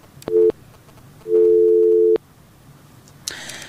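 Busy signal from a disconnected phone call: two loud, low, steady tones, a short one and then a much longer one after a pause, followed by a brief noisy burst at the end.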